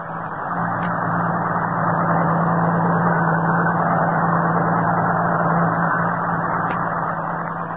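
Steady, loud truck engine rumble with a low hum that runs unbroken and at even strength throughout, with no voices.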